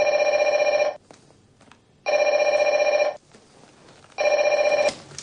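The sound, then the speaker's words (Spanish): A telephone bell rings three times, each ring a loud, steady electric trill of about a second, separated by short quiet gaps. The call comes from a phone booth. “La anciana lo está llamando desde una cabina telefónica.”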